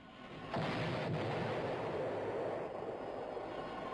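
A pirate ship's cannon fires with a sudden heavy blast, then a loud, roaring rumble that holds steady for several seconds before easing slightly.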